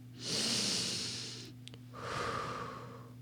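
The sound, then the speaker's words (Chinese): One slow, deep breath taken as a calming exercise in a children's guidance story: a long, airy inhale and then a softer, lower exhale, both quiet and alone. “试试和他一样，深呼吸，”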